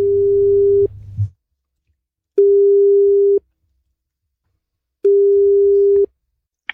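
Telephone call tone on an outgoing call: three steady, mid-low beeps of about a second each, separated by silent pauses, with a low rumble under the first.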